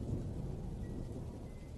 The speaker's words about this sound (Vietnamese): Sấm sét ầm ầm đánh xuống, làm cơn mưa lớn hơn.